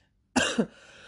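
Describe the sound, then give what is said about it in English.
A single short cough, with two quick bursts close together, sounding alone against quiet background. “that's not a corona cough. Alright, that's not a corona cough.”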